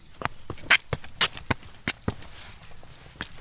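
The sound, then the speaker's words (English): Footsteps climb garden steps up a grassy mound toward an arbour in a historic house garden: a steady series of distinct, crisp steps with uneven spacing and a longer gap near the end, heard alone. “Can we walk up the steps up the mound and to the arbour? Yeah, let's go.”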